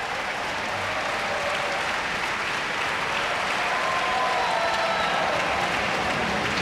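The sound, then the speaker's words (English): An Atlanta concert audience applauds for an encore after a classical piano recital, a dense, even wash of clapping that holds at a steady loudness throughout. “And this Atlanta audience was in accolade mode. They were not about to let him get away without an encore.”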